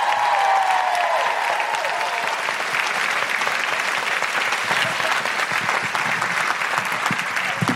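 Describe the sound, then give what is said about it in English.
Audience applause welcoming a performer to the stage, dense and steady clapping that stays loud and even for the whole stretch, with no talk over it. “Put your hands together and make incredible woohooing noises”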